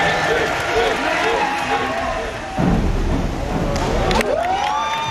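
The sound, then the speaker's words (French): A small but noisy crowd of spectators at a diving competition pool cheers and shouts in a continuous, loud roar of mixed voices, with a brief dip in the middle. “Et du plaisir, il en a donné aussi aux peu nombreux mais bruyants spectateurs.”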